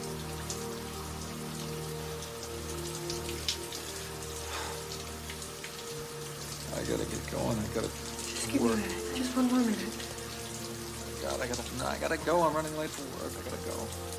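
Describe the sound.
Shower water running in a steady, dense spray that hisses continuously, with muffled voice-like sounds rising over it in the second half.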